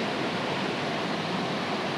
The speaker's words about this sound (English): Here we are at the waterfall again, the big bad waterfall.